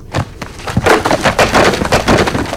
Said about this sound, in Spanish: Otra grieta atravesó una de las paredes.